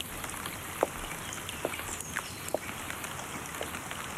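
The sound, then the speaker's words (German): Warm early-spring rain falling as a steady, dense hiss with a few sharper taps scattered through it, moderately quiet and with no voices. “Der Regen ist ganz warm”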